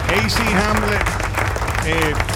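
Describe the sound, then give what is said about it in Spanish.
Applause for a rock band anniversary celebration: a brief burst of clapping and crowd noise heard under continuous talk. “Aplauso.”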